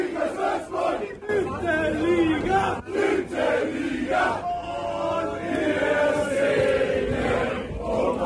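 Football fans celebrate after a promotion playoff match, a dense, loud crowd roaring, shouting and chanting without a break throughout.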